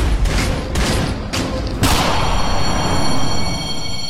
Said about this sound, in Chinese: 开枪了！